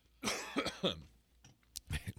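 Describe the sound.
A person coughing and gagging, a rough burst of several harsh coughs with throat clearing, uneven in rhythm and fairly loud, with short pauses between the spasms.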